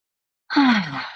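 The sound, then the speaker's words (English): A deep, relaxing breath let out as a single voiced sigh. It starts suddenly and loudly, and its low hum slides downward in pitch before fading over about a second. “Nice deep relaxing breath that we took.”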